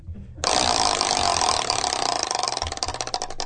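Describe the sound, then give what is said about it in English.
Clicking of a prize wheel spun for a comedy game bit, kicking in abruptly as a loud, dense rattle of rapid clicks that gradually spread out as the wheel slows. “and then you play the sound effect. People actually thought we went to the time to make a little clicking thing.”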